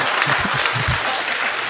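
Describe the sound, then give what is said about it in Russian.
Audience clapping during a lecture: a short burst of steady, fairly loud applause from many hands, holding evenly for under two seconds. “А что вы хлопаете?”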